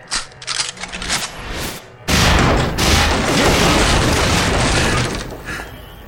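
Gunfire erupts in loud, rapid bursts at first, then becomes a dense, continuous volley of many overlapping shots that holds steady before tapering off near the end.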